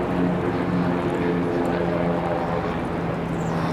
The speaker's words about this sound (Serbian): čujete da dolazi avion, možda i onaj dvokrilac je.